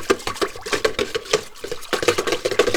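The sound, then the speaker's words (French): A whisk stirs a thick paint mixture in a sealed pot, working back in water that had risen to the surface: many quick, uneven scraping and clinking strokes in a steady rhythm, with no voices. “je vais prendre un fouet et je vais bien remuer la matière parce que l'eau est remontée à la surface.”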